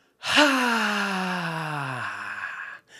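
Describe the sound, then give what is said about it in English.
A loud, voiced exhale used as a breathing exercise for anxious people, starting abruptly and sliding slowly down in pitch before trailing off into breathy air. “I take a big inhale. And when I exhale, I make lots of noise.”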